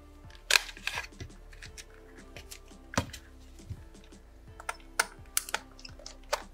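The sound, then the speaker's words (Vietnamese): Sharp clicks, taps and snaps come from a device's casing being opened. They are scattered and irregular, vary in loudness, and there is no talk. “Thì sau đây mình sẽ mở cái máy cho các bạn xem cái ruột bên trong của hàng xịn nhé.”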